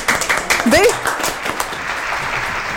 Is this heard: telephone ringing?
no